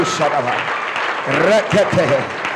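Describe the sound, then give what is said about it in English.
An audience claps hands at a church gathering in Accra, a dense stretch of clapping running under a loud voice that speaks and chants over it. “Clap your hands, everybody. Clap.”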